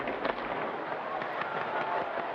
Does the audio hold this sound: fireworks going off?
yes